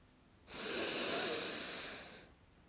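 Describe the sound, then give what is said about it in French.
A slow inhalation during a guided French breathing and energy exercise: one steady, airy breath that starts abruptly, holds evenly for almost two seconds, then fades out, with quiet before and after. “Puis à nouveau, vous pouvez inspirer.”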